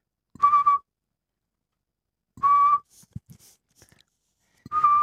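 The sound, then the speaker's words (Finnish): A person whistles in imitation of a Eurasian pygmy owl: three short, clear, mid-pitched whistles at a steady pitch, spaced about two seconds apart, with faint soft rustles in the silences between. “eli varpuspöllön vihellys. Mä kokeilen kanssa.”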